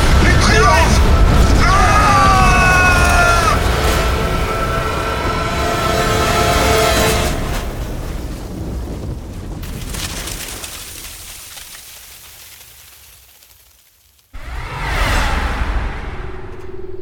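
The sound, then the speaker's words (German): A snowquake cracks the ground open with a deep booming rumble and a whooshing roar, and shouting voices are heard early on. The roar slowly fades to a low rumble, then a fresh loud burst erupts near the end. “Das ist ein Schneebeben! Achtung! Ja! ja! Der Boden reißt auf!”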